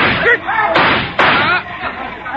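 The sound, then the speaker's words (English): Sharp gunshot bangs in a radio drama, two abrupt cracks cutting through excited, shouting voices. “Your shooting was not very well timed, Captain Andre.”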